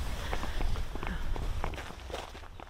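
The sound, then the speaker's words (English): Footsteps of people walking along a very narrow strip of grass between a cornfield and a potato field, a steady run of soft, muffled steps at an even walking pace throughout. “We are now walking along a very narrow strip of grass between a cornfield and a potato field.”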